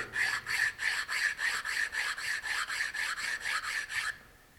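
Sanding on wood with sandpaper glued onto an oak board makes many quick, even back-and-forth rasping strokes in a steady rhythm. The strokes stop abruptly, leaving near silence.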